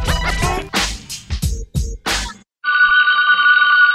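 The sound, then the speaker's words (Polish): Phone ringtone for an incoming call: a run of short, bright tonal bursts, then a steady, sustained electronic ring tone, loud and alone. “Dzwoni Damian. Dzwoni Damian. Dzwoni Damian.”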